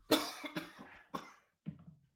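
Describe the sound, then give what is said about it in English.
Coughing from a man straining to keep his voice, a short run of several dry, harsh coughs in uneven bursts with brief gaps, heard alone without talk. “I'm coughing too, bro. We're both coughing, trying to keep our voices.”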